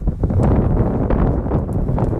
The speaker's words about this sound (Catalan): El fred talla la respiració. El vent se't cola per la samarreta tèrmica.